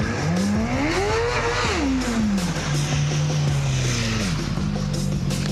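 A motorcycle engine revving as the throttle is opened, a loud tonal drone whose pitch climbs, then falls and levels off into a steady lower hum with further small shifts, with no talk.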